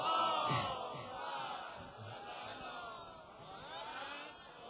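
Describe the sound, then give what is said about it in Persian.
A crowd at a gathering recites salavat, an Islamic blessing, with many voices chanting together in swelling, rising-and-falling phrases at a moderate level. “نه اول یه صلوات بفرستید.”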